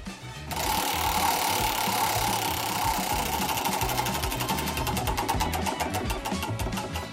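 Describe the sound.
A prize wheel spins in a Swedish humor-archive game, kicking in after a short pause with loud, rapid ratcheting clicks that run continuously, the individual ticks growing more distinct toward the end.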